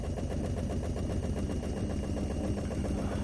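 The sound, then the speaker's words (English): A gyroscope ride spins with a steady, rapid, rattling mechanical drone that pulses evenly throughout, fairly quiet and unbroken. “I'm getting back into this gyroscope. You ever be depressed while sitting in a gyroscope and spinning around?”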